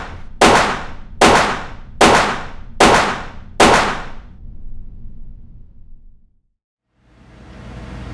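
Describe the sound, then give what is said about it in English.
Five loud gunshots ring out as a radio drama sound effect, sharp cracks fired at an even rhythm, each with a ringing, metallic decay, then a low rumble fades to brief silence before a soft noise returns. “Nice shooting, Colonel.”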